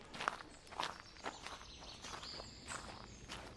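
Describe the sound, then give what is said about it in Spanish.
Footsteps of people walking on through the countryside, with a child between two adults. Faint, soft steps fall at a steady walking pace over a low background hiss. “Y llevando al niño en medio, entre él y Menahem, reanuda su camino.”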